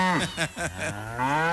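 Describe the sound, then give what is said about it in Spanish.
A cow being milked lows in a few short, clipped calls that run into a longer, steady moo, moderately loud and alone. “A ver, por acá vamos a ordeñar un ratico a Lolita. Lolita, siéntese acá, me toca que decirle así a Lolita. Siéntese acá para yo ordeñarla.”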